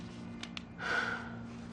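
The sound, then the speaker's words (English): A woman takes a deep breath while filling out a medical form: two quick, short sniffs, then a longer, louder breathy inhale. The breathing stays fairly soft over a steady low hum. “then takes a deep breath and stares off.”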